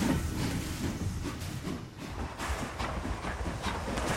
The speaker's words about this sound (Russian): Колеса паровоза движутся по рельсам в клубах пара.